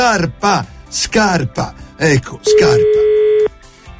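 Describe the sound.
A telephone call being dialed: a single steady electronic tone holds for about a second after a stretch of people talking in short bursts.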